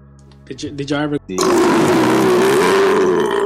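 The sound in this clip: A ridiculously long, loud burp rolls on for about two seconds as a rough, sustained tone, right after a brief burst of voice.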